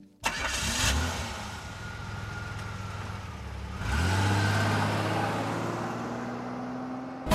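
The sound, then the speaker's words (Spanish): A car engine cranks and catches, settling into a steady idle before revving up into a louder, sustained run about halfway through, with no talk. “solamente nos queda abrochar nuestros cinturones para ponernos en marcha”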